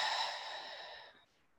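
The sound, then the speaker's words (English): A cleansing breath let out through the mouth during a guided breathing exercise, heard as a single soft, airy exhale that starts fairly full and tapers off over about a second, alone with no talk. “And then we'll take three cleansing breaths here, in through the nose. A little pause and an exhale through the mouth.”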